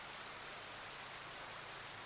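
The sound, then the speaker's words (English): Steady rain falls as a soft, continuous hiss, even and unbroken throughout, with no voices. “can you just focus on the sound of the rain? Beautiful sound of the rain.”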